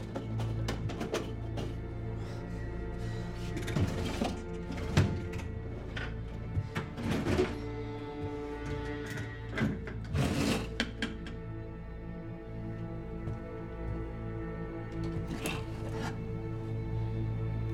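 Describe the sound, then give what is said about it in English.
Rummaging through a bookshelf and desk drawers in an office: many scattered clicks, knocks, rustles and sliding scrapes come at an uneven pace, with a few louder thumps, and no one speaks. “Kaylee rummages through a bookshelf and desk drawers.”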